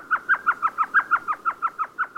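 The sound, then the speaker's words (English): Elf owl call: a rapid, evenly spaced run of short, high yelping notes, each sharply inflected, repeating without pause for the whole stretch. “Standing less than 6 inches tall, feathered in gray with big yellow eyes, the elf owl weighs less than an ounce and a half, a bit less than a golf ball.”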